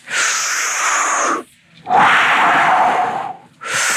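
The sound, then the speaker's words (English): Deep, forceful breathing during a group breath exercise: long, airy, rushing breaths, each lasting over a second, separated by brief gaps. The breaths are loud and steady, with no talk over them. “All right, we're gonna do 30 breaths.”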